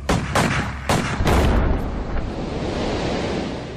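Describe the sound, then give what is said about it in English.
Rifle shots are fired at a floating mine trailing behind a line of barges at sea. A few sharp cracks come in the first second and a half, then a sustained low rush of noise continues to the end. “We let the mine get 100 yards astern of the last barge, and the men blow it up with rifle fire.”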